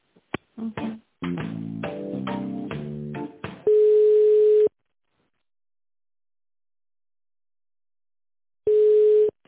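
Telephone line sounds during a call transfer: a short run of electronic melodic tones, then two steady line tones of about a second each, separated by a long silence.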